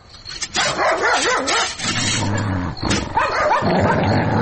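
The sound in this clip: A dog barks loudly and repeatedly, mixing rough barks with wavering, whimpering yelps in an irregular run that stays loud throughout.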